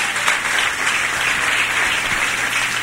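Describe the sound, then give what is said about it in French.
An audience applauding and acclaiming the Lord during a church service: loud, dense, continuous clapping that holds steady from start to finish. “Alors acclamez le Seigneur.”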